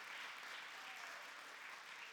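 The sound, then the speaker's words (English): A church audience claps their hands in praise during a morning service, a faint, steady wash of dense applause that carries on evenly throughout. “So give God a big hand clap of praise this morning as we begin.”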